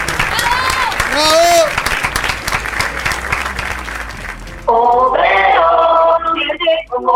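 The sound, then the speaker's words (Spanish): Applause fills a radio studio as a theatre cast is welcomed. Dense clapping mixed with voices runs for about four seconds, then a sung melody takes over. “lo vamos a recibir en realidad con un fuerte, fuerte, fuerte aplauso.”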